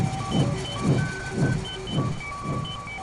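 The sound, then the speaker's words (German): Pulsing electronic hum of a cloning device scanning a person, a radio play sound effect: five evenly spaced whooshing swells over a steady drone, with thin high tones sounding throughout. “Stellen Sie sich bitte in dieses Gerät. Es wird Sie sowohl im Äußeren als auch im Inneren scannen und daraufhin eine exakte Kopie von Ihnen erstellen.”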